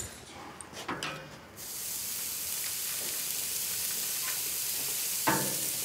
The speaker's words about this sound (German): Ich packe jetzt hier die Burger-Patties auf den Grill. Hoffe, die fallen mir nicht auseinander.